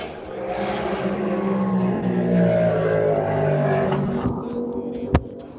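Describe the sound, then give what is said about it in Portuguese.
A motorcycle passes by, its steady engine drone swelling toward the middle and then easing off. “Passou uma moto aí em algum lugar. Passou mesmo. Foi aqui.”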